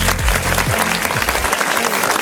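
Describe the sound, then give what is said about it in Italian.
Dense, continuous applause from a studio audience, steady, loud clapping filling the whole stretch without a break. “applauso a Ricky Balza.”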